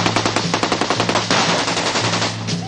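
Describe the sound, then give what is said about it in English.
An AK-47 assault rifle fires in loud automatic bursts of rapid, cracking shots. The fire runs on without pause, so the individual reports blur into a dense, rattling stream. “This is the AK-47 assault rifle, the preferred weapon of your enemy. And it makes a distinctive sound when fired at you, so remember it.”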